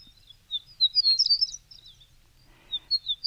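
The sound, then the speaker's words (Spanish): A horned lark (Eremophila alpestris) sings high, thin, tinkling twittering phrases in quick bursts, pauses briefly, then resumes with a few more chirps over quiet background. “Es la alondra cornuda. Nombre científico, Eremophila alpestris.”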